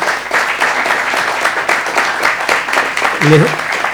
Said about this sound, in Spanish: Les pido un aplauso para Juanjo Grande